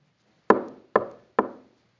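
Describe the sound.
Three firm knocks on a door come at an even pace about half a second apart. Each is a sharp, resonant rap with a short fading ring, and nothing else is heard around them.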